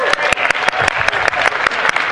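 A church audience applauding: dense, lively clapping that stays steady and loud for the whole short stretch.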